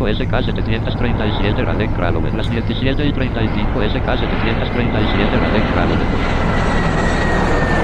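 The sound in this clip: Steady droning hum of an airplane's engines as it prepares to depart, loud and unbroken throughout, with indistinct voices over it.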